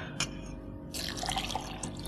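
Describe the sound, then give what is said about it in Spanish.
Water is poured into a glass: one brief drip, then about a second of steady trickling and splashing. “¿Me sirves un vaso de agua? Al momento.”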